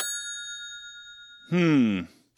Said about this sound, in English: Do people call all the time? Should I let it go to voicemail?